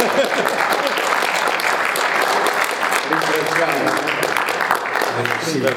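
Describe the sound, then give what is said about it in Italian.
An audience applauds after a reading at a talk: sustained, dense clapping from many people holds steady throughout, with a voice starting to emerge under the clapping in the second half. “Naturalmente un applauso alla lettura.”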